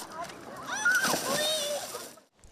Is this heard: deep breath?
no